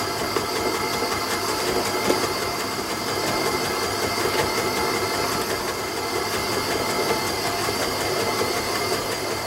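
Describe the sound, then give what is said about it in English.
Electric mixer running on low speed while dry ingredients such as cocoa powder are added to a batter, a steady mechanical whir and rumble with faint rhythmic rattling, continuous and unchanging, with no talking. “Make sure your mixer is set to low, and now we're going to start adding the dry ingredients.”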